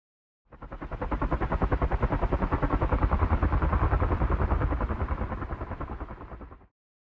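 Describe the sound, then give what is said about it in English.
Helicopter rotor chop: a steady, rapid thumping pulse that rises from silence, holds for several seconds and cuts off, heard alone. “Helicopter.”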